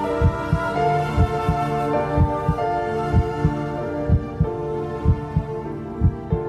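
A heartbeat, as heard from inside the womb, thumps in a steady, regular rhythm of low paired pulses over a sustained soft hum.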